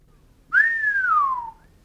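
A man whistles to himself: one sustained tone that rises briefly, then glides slowly downward for about a second, alone and clear.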